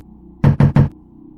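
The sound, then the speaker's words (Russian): Three quick, loud knocks on a door land in an even rhythm, each one a sharp thud, with nothing else heard. “Девушка снова постучала в дверь.”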